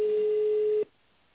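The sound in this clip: A single steady telephone ringback tone on a call to a company's reception line. It holds evenly for under a second, then cuts off into faint line hiss.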